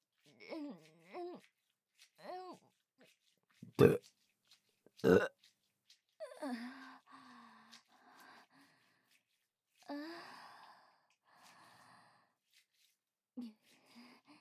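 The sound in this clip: A young woman's crude, deliberate burps: two loud, rough belches stand out among softer voiced groans and breathy vocal sounds, with quiet pauses between them.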